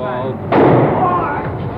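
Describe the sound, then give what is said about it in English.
A sudden, sharp gunshot as Jack Ruby shoots Lee Oswald in the basement of Dallas Police Headquarters, in an archival NBC recording. The single loud crack cuts into steady background noise, which then continues as a dense, agitated roar with voices. “He's been shot. He's been shot. Lee Oswald has been shot. There's the man with a gun. It's absolute panic.”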